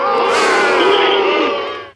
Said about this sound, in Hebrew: יש לנו את הבוז הראשון.